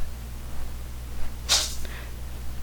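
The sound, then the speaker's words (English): A cat sneezes once, a brief sharp burst that is faint against a steady low electrical hum, with quiet stillness before and after. “That was my cat, one of my cats that sneezed in the background there.”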